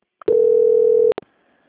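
A telephone line tone during a call transfer: one steady, loud, mid-pitched beep lasting under a second, with short clicks just before and after it, then near silence.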